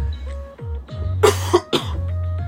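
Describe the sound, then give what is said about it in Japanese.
A few harsh, short coughs in quick succession from a person with a persistent cough that will not stop, sounding loud against a quiet tonal background. “すいません、咳がね、なんかこれ100日咳なのかなって思うんですけど、全然止まらないんですよね。”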